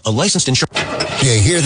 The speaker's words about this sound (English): That's the sound of uncertainty when you see a check engine light or your car unexpectedly breaks down.